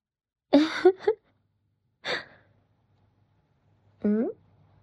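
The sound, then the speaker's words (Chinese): Rhythmic breathing in a repeating pattern: a few separate breathy gasps and exhales, some with a voiced, sighing edge, spaced by short silences. “现在要一、一、二，保持这个频率呼吸。”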